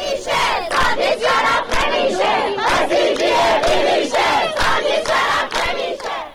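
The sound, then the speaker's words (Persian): University students in Kermanshah chant in unison at a protest rally, a loud crowd of voices shouting short repeated phrases in a steady, pulsing rhythm throughout. “دانشگاه صنعتی شیراز، دانشکده علوم انسانی دانشگاه یاسوج، دانشگاه هرمزگان و دانشگاه رازی کرمانشاه دست به تجمع‌های اعتراضی زدند. صدای دانشجویان دانشگاه رازی کرمانشاه رو با هم می‌شنویم.”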